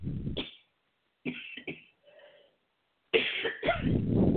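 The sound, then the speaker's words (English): Coughing from a dry, itchy throat: three groups of harsh, throaty bursts separated by short silences, the last group the longest and loudest. “have a little dryness in my throat today. That makes me cough.”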